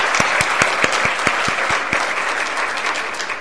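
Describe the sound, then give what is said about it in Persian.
An audience applauds at a gathering to honour a guest. Dense, sustained clapping holds at an even loudness throughout, with several sharp individual claps standing out near the start. “یک دست بلند برای خانومشون بزنیم.”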